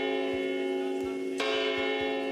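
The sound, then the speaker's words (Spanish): A clock tower bell in Chinchón, a former church bell tower, rings with a long sustained metallic tone, then is struck once more midway, its bright clang blooming over the lingering hum. “la Torre del Reloj, por favor. Todo el mundo es puntual en Chinchón, y es por esa Torre del Reloj que suena así de bien, así suena.”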